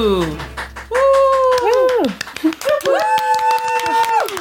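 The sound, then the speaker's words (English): A few voices imitate a studio audience with clapping and whooping cheers. Scattered claps run under long, sliding vocal whoops that rise and then fall in pitch, with a brief dip in the middle. “What a convincing audience sound.”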